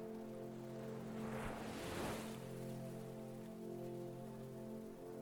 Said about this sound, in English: refocus your attention to your breath and to my voice and to the waves in the background.